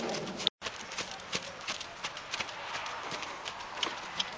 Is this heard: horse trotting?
yes